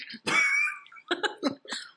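Coughing from a person who nearly choked while eating: a few harsh, throaty bursts, the first long and raspy, followed by shorter, broken coughs in an uneven rhythm.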